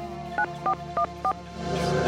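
Telephone dialing to call a rapper: four short touch-tone beeps at an even rhythm, followed by a steady, rising background hum.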